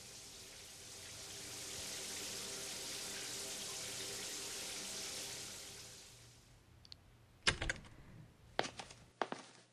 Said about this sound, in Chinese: 是在洗澡了，很好。